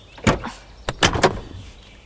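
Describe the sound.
A self-driving car's door opens with a quick series of about four mechanical clunks and whirring whooshes. The first burst is loud, followed by a short pause and then three closely spaced bursts.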